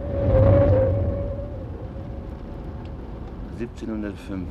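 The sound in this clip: In a radio drama, a car engine drones as the car drives around a curve. A low, steady rumble is loudest at the start and then settles, and a voice speaks briefly near the end.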